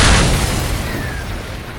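A bazooka blast in a video game, heard as a single heavy boom whose deep, rumbling roar fades steadily over the next two seconds.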